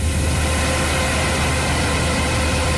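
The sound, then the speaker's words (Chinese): A combine harvester working at full power in a golden cornfield in Taishan village, Yungang District, Datong, Shanxi, gives off a loud, steady, unbroken engine roar with heavy low rumble and broad hiss. “连片玉米田里满目金黄，收割机正开足马力作业，转运车辆紧随其后，将刚收获的玉米及时运往收储点。”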